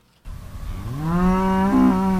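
Marigold the cow moos in a dairy farm pasture in Lexington on a chilly spring morning, one long, loud, drawn-out moo that climbs in pitch and then holds steady.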